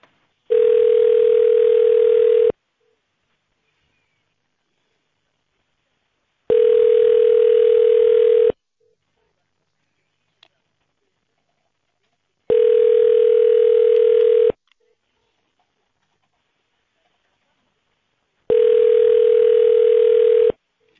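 A telephone tone plays while a call is being transferred: four steady, mid-pitched beeps, each about two seconds long, evenly spaced with silent gaps between. No voices.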